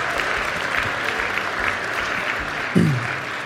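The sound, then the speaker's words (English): A church audience applauds with dense, continuous clapping that holds at an even, fairly loud level throughout. “You can clap. We can do that here.”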